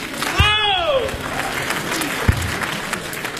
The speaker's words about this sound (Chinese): 非常感谢大家这么热情的掌声鼓励